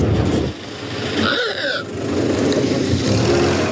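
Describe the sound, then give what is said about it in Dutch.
A Ford Model T car engine runs with a steady, rough, noisy rumble, alone and fairly loud. “Het begint uiteraard bij Henry Ford en zijn legendarische Ford T. Die klinkt zo.”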